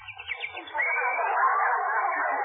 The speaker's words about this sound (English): Isn't that cute? That sparrow must be building a nest.